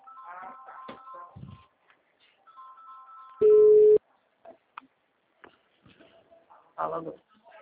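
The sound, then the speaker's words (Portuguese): Ringback tone of an outgoing telephone call: one loud, steady, low electronic tone lasts just over half a second, with faint scattered sounds before and after it. “Acho que tá chamando.”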